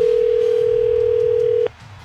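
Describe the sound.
A telephone dial tone sounds as a call is put through: one steady, single-pitched tone holds for about a second and a half, then cuts off abruptly, leaving only faint low background hum.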